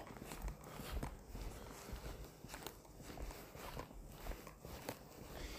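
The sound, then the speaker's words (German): Footsteps of a person walking fast on a walk through Lindau on Lake Constance: many quick, steady steps, faint and evenly paced, with no talk over them. “Ich gehe jetzt auch gerade mal ein bisschen schneller, weil ich echt auf Klo muss.”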